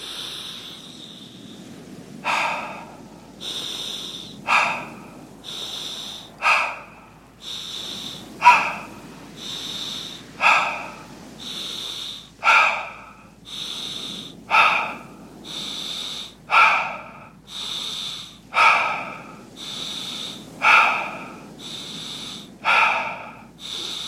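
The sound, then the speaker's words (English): Rhythmic breathing from a guided sleep meditation exercise: many nasal inhales each followed by an airy mouth exhale, repeating at a steady, even tempo over a faint background hiss. “one of my favorites, which is an inhale nose, exhale mouth. Follow my tempo the whole way.”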